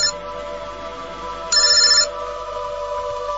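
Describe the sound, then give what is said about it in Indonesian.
A mobile phone lying on a bed rings with one bright, electronic ringtone burst of about half a second, standing out clearly above a steady tonal hum. No one speaks. “teleponku berbunyi lagi. Aku segera mengambil handphoneku yang kusimpan di atas tempat tidur itu.”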